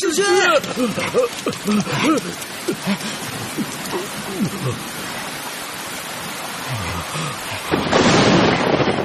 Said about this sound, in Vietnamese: sao đột nhiên lại mưa lớn như vậy? Ta bị hình như không có đem theo dù.